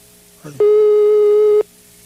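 Telephone busy signal while redialing a dropped call: one loud, steady, mid-pitched tone lasting about a second, preceded by a brief fainter click-like sound and followed by quiet line hiss.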